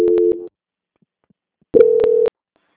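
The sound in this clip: Telephone line tones during a call transfer: two short, steady tone bursts separated by a silent gap, each ending abruptly.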